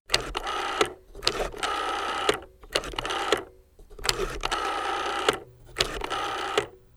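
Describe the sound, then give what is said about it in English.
An old-fashioned rotary phone dial being turned and released several times. Each turn makes a whirring, clicking mechanical burst, with short pauses between them in a steady rhythm. “If you said old-fashioned rotary phone, you're right.”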